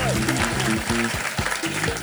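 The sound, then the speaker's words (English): An audience at a live show at the Underbelly Festival on the South Bank whoops and applauds. Dense clapping runs throughout under repeated high, rising and falling whoops. “I thought good whooping.”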